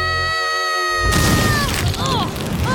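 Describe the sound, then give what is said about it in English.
A cartoon barbecue explodes in a sudden loud boom of crackling noise that cuts off a sustained tonal chord, followed by a rumbling tail with a few short wavering tones. “Barbecue explode!”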